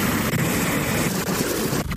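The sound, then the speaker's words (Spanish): Early-morning hailstorm in Valencia: a dense, steady roar of pelting hail that stays loud and unbroken throughout, with no voices. “Así sonaba la tormenta de granizo que se ha registrado allí a primera hora de la mañana.”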